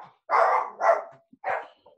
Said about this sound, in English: Sorry, dog's kicking off.